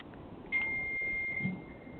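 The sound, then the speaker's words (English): A single steady electronic phone beep sounds on a call, a thin mid-high tone that holds for about a second over faint line hiss. “Somebody needs to mute their phone.”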